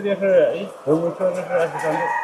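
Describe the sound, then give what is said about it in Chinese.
Black-feathered Wuhei chickens cluck and call in a climate-controlled henhouse while pecking at feed, giving a run of loud, harmonic calls in quick succession. “鸡舍里恒温恒湿，曾山看着眼前欢快啄食的五黑鸡，脸上带了笑意。”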